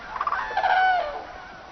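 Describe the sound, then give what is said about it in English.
Cranes calling in the Yancheng coastal wetland in China: a few harsh, overlapping bugling calls at mid-high pitch over a steady background hiss. “This is Yancheng, the largest coastal wetland in China, visited by an estimated 3 million birds each year.”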